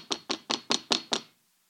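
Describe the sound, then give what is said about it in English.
Knocking on an outer entrance door: six sharp, evenly spaced knocks in a steady rhythm, heard alone, then silence. “Peter knocked at the outer entrance”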